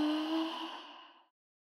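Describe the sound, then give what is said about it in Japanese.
A deep breath in a guided deep-breathing exercise: a single long, soft, breathy exhale, moderately quiet, that fades gradually over about a second and ends in silence. “深呼吸しよか。うちの合図に合わせてな。吸って、吐いて、”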